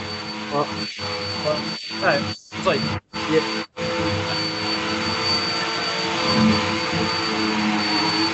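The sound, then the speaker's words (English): A vacuum cleaner runs just outside a door, a steady whining drone that cuts out briefly a few times, then continues evenly. “I'm sorry, my roommates are vacuuming right now.”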